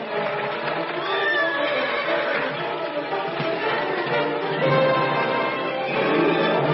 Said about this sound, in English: There's a horse!